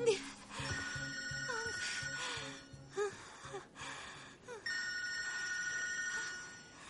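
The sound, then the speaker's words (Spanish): A mobile phone rings during labour contractions, its electronic ringtone repeating in several steady bursts, faint beneath people talking. “Deberías contestar, podría ser del trabajo. Él tira el móvil por una ventana.”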